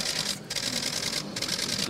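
Faint camera clicks mark a photo being taken, with a couple of brief shutter-like breaks in a soft, constant whir.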